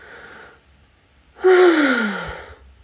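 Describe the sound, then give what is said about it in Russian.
A deep inhale followed by a voiced exhale, from a body-oriented breathing practice: a soft breathy intake, a short pause, then a loud sighing outbreath whose tone slides downward and fades away. “То есть вот когда мы делаем вдох,”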